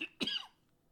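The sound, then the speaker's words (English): A single short cough, a sharp, rough burst trailing off into a breathy fade, quiet and on its own. “Really didn't mean to do that. And that's, that coughing is one reason I've been off the podcast thing for a bit”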